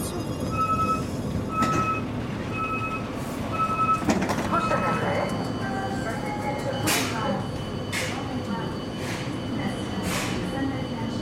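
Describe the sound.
Train interior ambience on a ride to Saint-Étienne: a steady, even rumble with thin tonal whines and a few short high beeps early on, while a voice speaks over it.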